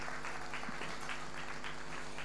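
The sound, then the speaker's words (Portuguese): Audience applause at a live concert as a singer asks the crowd to clap for a town: dense, steady clapping fills the whole clip at an even level, with no pauses. “Por isso eu quero-vos pedir uma grande salva de palmas para a Alfândega da Fé.”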